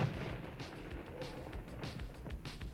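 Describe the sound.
A grenade explosion in a film, heard as a steady, low, rumbling roar of blast noise that holds through the whole short stretch without a distinct single burst.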